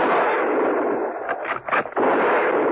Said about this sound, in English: They heard the shots from the deserted garage and ran towards it.